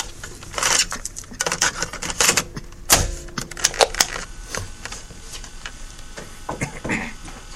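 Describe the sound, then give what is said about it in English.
Plastic clicks, rattles and knocks of an audio cassette tape being turned over in a recorder. A busy run of irregular handling noises includes one heavier clunk near the middle; no speech. “But let me turn this tape over first.”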